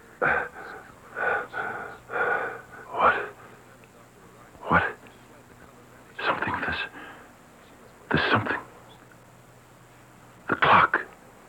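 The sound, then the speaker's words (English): A person gasps while being choked: several separate bursts of strained, raspy breath and throat noise, spaced unevenly with quiet gaps between them. “My throat. You're choking me.”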